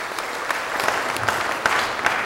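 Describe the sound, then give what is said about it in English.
An audience claps for children who have just sung at a church service. The applause is steady and dense, with a few sharper clap accents standing out, and no talking over it. “Big round of applause again for all the kids singing. Well done.”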